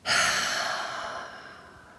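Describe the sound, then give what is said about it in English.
One powerful exhale through the mouth after a deep inhale through the nose, done as a breathing exercise. It is a single breathy rush with a sudden strong onset that fades gradually over about two seconds, with no speech. “Breathe in through the nose, feeling your chest and stomach expand, and then exhale powerfully through your mouth. It should sound like this.”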